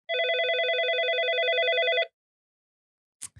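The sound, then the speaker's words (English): A telephone rings for an incoming call with one warbling electronic trill of about two seconds, followed by silence and a faint click. “On a phone call， Okay， normal phone call。”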